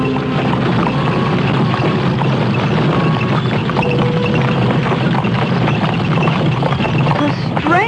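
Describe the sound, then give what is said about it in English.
A covered wagon rolling across countryside: a steady, dense rumble and rattle with faint rhythmic hoof-like clopping running continuously throughout, loud and unbroken, with no clear talk. “Riding in a covered wagon. It's not nearly as uncomfortable as I thought it would be.”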